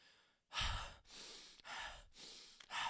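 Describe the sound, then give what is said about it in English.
A person breathing in through the nose and out through the mouth, several loud, breathy inhales and exhales alternating in a steady rhythm, with no talk. “You should go through your nose to breathe in, and then out through your mouth.”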